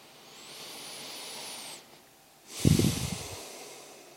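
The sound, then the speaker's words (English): Deep breathing: a long, soft, hissing breath drawn in, a short pause, then a louder, rougher rush of air with low fluttering. “And make sure that you can breathe comfortably in, right? No restrictions.”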